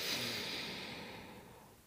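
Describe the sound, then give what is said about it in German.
A deep breath is drawn in through the nose as a single soft, airy rush. It is faint and gradually fades over about two seconds, with no talking. “Tief einatmen durch die Nase”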